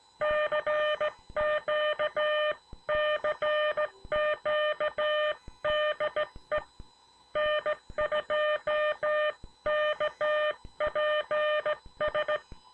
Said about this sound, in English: I also fixed the timing of my Vibroplex bug so that the dits are not sharp anymore. Listen to the difference from what you heard last time.